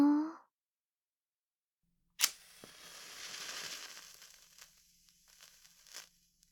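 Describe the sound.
A red, berry-scented match is struck with one short, sharp scrape, followed by a soft, breathy hiss of the flame that fades out gradually, all fairly faint.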